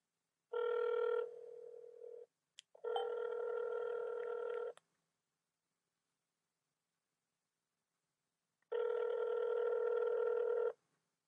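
A phone call rings while waiting for someone to pick up. The ringback tone sounds as a few steady, buzzing bursts separated by pauses, with a long silence before the last one. No voices are heard.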